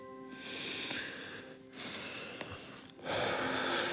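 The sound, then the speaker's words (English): People breathing in and out together, a few long breathy rushes of air separated by short quiet gaps, moderately loud with no talk. “Breathe in and out once.”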